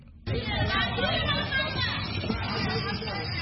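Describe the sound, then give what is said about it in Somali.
Hubbub of a crowd of displaced women and children in Somalia queuing for clean water, holding plastic containers, a dense, continuous babble of overlapping voices with one voice talking clearly over it. “Waxay u badan yihiin haween iyo caruur, waxay saf ugu jiraan helidda biyo nadiif ah. Qof kasta oo halkan taagan waxa uu gacanta ku hayaa caag”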